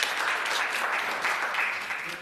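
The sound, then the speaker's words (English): Audience applause for a speaker introduced at a panel event, a dense, steady wash of many hands clapping that holds at an even loudness for the whole stretch without a break. “If we can please give him a round of applause.”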